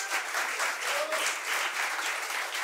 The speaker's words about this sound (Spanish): aplausos para ellos. Un aplauso, por favor.